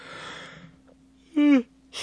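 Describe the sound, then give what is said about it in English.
A person yawning: a breathy rush of air, then a short, loud voiced moan that sags in pitch as it ends. “This isn't boring, okay? I don't know why I yawn.”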